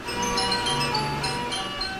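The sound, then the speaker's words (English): Tinkling carousel music plays in Kansas. Bright, bell-like tones carry a steady tune, moderately loud and unbroken throughout. “The sound of a carousel. You've probably heard it dozens, if not hundreds, of times.”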